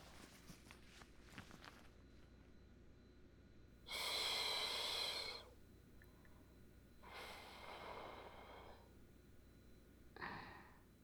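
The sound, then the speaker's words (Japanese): A woman breathes close to the microphone: one long, strong rush of breath, then two softer, shorter breaths after pauses, with no talking. “お姉ちゃんの息はどうですか？”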